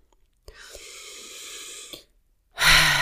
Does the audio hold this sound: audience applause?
no